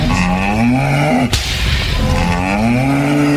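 A buffalo pulling a cart moos loudly in two long, low, drawn-out calls, split by a sharp crack between them.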